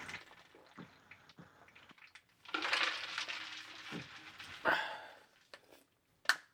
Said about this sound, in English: Water jug. Important tool as a podcaster. Oh, yeah. People think I'm vaping or something.